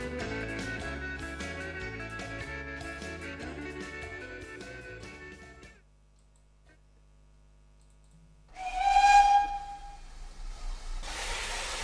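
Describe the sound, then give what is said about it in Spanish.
A train whistle sounds for departure after a passage of music fades to near silence. The whistle is one bright, steady tonal blast, followed by a rush of hissing. “Y nos subiremos al tren que enseguida pita su salida.”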